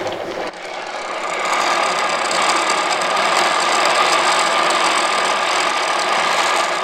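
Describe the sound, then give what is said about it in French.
Pedal-powered bicycle blender mixing fruit with syrup, a whirring mechanical drone that builds over the first second or two, then holds loud and even with a fine rattling texture. “je le remplis de fruits, un petit peu de sirop ou de lait, suivant ce que je veux faire. Je le ferme, je monte sur le vélo et je me mets à pédaler pour mixer tout ça.”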